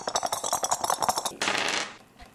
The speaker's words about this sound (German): Ich habe jetzt einen Knochen und eine Schlammpfütze gewürfelt.